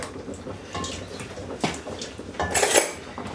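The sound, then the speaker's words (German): A utensil clinks and scrapes against a pot while pudding powder is stirred into it. Irregular metallic taps and rattles build to a brighter, louder clatter near the end, with no talk. “So, ich verrühre jetzt das Puddingpulver.”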